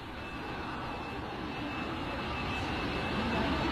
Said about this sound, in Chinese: 亲爱的旅客，本次航班已经安全降落在深圳机场，谢谢您的光临。